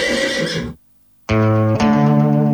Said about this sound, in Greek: Το άλογο απάντησε.